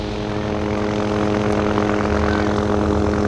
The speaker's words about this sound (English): He looks around as a helicopter flies by about 30 yards away.